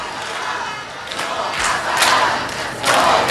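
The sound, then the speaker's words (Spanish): A crowd cheers and shouts without pause to welcome someone who has just arrived. The roar holds steady and swells louder near the end. “Alguien llega y le están jaleando. Es lo único que puedo decirte. En cuanto averigüe de quién se trata, os lo cuento. Parece que es alguien que es muy bienvenido.”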